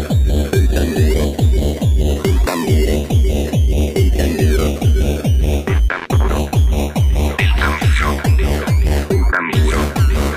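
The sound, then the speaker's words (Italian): Loud, evenly spaced drum strokes drive a steady march tempo from start to end, with tonal band instruments sounding over the beat. “Fate però attenzione ai colpi del tamburo.”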